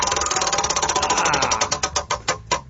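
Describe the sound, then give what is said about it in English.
A prize wheel spins with a fast, steady rattle of clicking pegs that gradually slows into a few widely spaced ticks as it comes to rest. “Okay, so now I'm coming up to the wheel, right? Just stretching out, and let me spin that wheel.”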